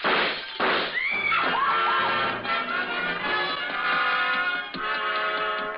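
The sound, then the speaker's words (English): Revolver shots in a radio drama: two sharp bangs at the start give way to a long crashing, ringing tail. “He made the roof just as I crossed in front of it. The flashes from his revolver told me that. They also told me he had 2 slugs left to throw at me.”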